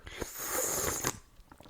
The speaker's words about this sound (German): Ich schlürfe mal ins Mikrofon.